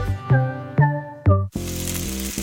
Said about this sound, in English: That's the sound of steak searing in its juices on your new pellet grill.